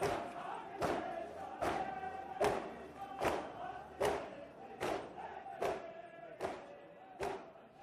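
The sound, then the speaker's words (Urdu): Chest-beating by Muharram mourning processions in Karbala: a steady, even rhythm of many heavy thuds, each strike sharp and loud, over a continuous bed of massed crowd voices. “سینہ زنی میں مشغول ہیں، اور بڑی تعداد میں ماتمی دستے اپنے اپنے طور پر عزاداری سید الشہداء میں مشغول نظر آ رہے ہیں”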